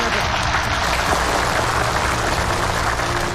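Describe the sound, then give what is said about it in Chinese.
Audience applause at a ceremony honoring police station chiefs: a dense, loud, sustained wash of clapping that holds steady from start to finish. “让我们用最热烈的掌声欢送十位所长移步台下。”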